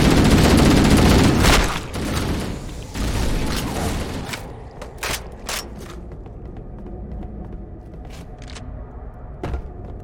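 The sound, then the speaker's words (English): Assault rifle fire in a video game: a long, loud burst of rapid shots, a second shorter burst, then several isolated sharp cracks over a lower rumbling background. “Getting shot with like a half a clip of assault rifle.”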